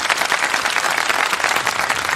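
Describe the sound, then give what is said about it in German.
Applause at the drei90 Awards ceremony greets the umbrella association: dense, even clapping from a large audience that holds steady and loud throughout, with no talk over it. “Das war erst der Applaus für den Dachverband.”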